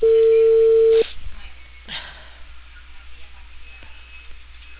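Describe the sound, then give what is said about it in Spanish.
Telephone tone after a dropped call, one continuous mid-pitched beep with a narrow phone-line sound that holds for about a second and then cuts off, followed by quieter, scattered sounds. “Aló, se cortó la llamada, señorita, dígame.”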